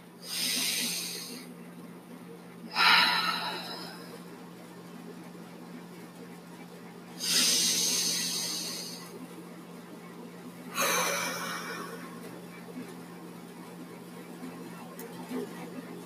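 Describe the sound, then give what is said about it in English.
Deep breathing during a guided scripture meditation: four slow, airy, hissing breaths spaced a few seconds apart, soft and breathy over a faint steady low hum. “So take a few deep breaths with me right now.”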